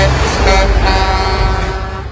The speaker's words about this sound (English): This is the sound of a road train on a country road.